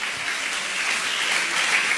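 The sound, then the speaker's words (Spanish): Applause from a church audience during a Spanish-language worship service: a dense, steady clatter of many hands clapping together, heard alone and holding an even level throughout. “Aplauda el nombre de Jesús.”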